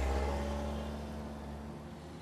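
Low, steady engine hum of a car pulling away from a house and driving off along a street at night, faint throughout and easing slightly in level.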